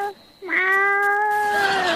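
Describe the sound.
A person imitates a cat's meow during an animal impression contest: a brief opening note, then one long, loud, drawn-out meow held at a fairly steady pitch.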